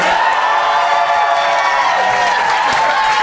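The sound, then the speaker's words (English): Loud audience applause and cheering at a live debate-style event, with dense continuous clapping mixed with whoops and shouts that stays at a steady high level throughout. “please applaud now”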